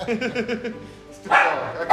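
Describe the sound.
A dog barking in a quick run of short yaps, then a pause and a harsher noisy burst, with a voice talking over it.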